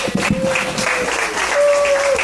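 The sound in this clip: Applause from a church audience welcoming speakers to the stage, a lively clatter of many hands clapping at a fairly steady level for a couple of seconds.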